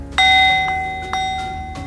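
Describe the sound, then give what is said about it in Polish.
Gong strikes signalling the time left for an answer in a debate: two bright, ringing metallic tones with long sustain. The second is struck while the first still rings, and both fade slowly. “Jedno uderzenie gongu oznacza 15 sekund do końca odpowiedzi.”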